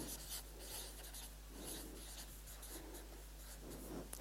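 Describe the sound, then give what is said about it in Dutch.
Someone writes a word on a board in Latin letters, a run of faint scratchy, rubbing strokes in short bursts over a steady low hum. “En ik schrijf hier bara.”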